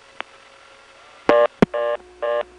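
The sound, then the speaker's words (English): Telephone dialing tones from a call placed through an NX1 crossbar switch: a faint click, then three short, steady multi-tone bursts with brief gaps between them. A sharp click falls between the first and second bursts. “So we got this dialing one. I'm sorry. And that is an NX1 crossbar switch.”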